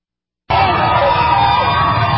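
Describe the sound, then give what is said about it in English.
A crowd cheers Pope Francis as he is driven from Dublin Castle. The shouting and cheering burst in suddenly and then hold as a loud, steady roar of many voices. “Pope Francis is cheered as he's driven from Dublin Castle after meeting with Irish Prime Minister Leo Varadkar.”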